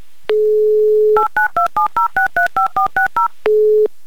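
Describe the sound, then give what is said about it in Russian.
A telephone number is dialed to call a listener. A steady dial tone comes first, then eleven quick touch-tone beeps in an even rhythm, each a different pitch pair, and then a second steady tone. “Позвоним Любови и спросим, слушала ли она Юмор ФМ.”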